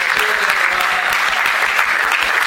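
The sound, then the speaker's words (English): Audience applause at a live panel event: a dense, steady wash of many hands clapping that holds at an even, loud level throughout, with no voices standing out. “So feel free to applaud now, and this is like interactive.”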